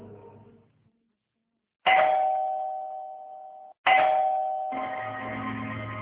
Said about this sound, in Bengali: কি ব্যাপার, এত রাতে কলিং বেল দিচ্ছে কে?